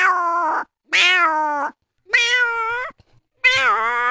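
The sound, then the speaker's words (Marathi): A hungry cat meows four times, each a loud, drawn-out tonal cry with short pauses between, and the last call wavers in pitch. “तसाच मांजर एक भुकेला झाल्यावर आपल्या जवळ फिरत, मग ती मांजर काय कशी काय आवाज देते.”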